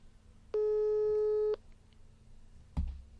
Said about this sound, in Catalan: Tornem a intentar, si ens pot agarrar el telèfon, el comissari. Sabem que estem cridant-lo per telèfon,